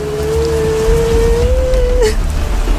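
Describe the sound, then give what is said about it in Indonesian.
Steady rain pours down on someone walking out in it, a dense, loud hiss throughout with no voices, and a thin sustained tone running through the first two seconds. “Ngapain jalan kaki hujan-hujanan?”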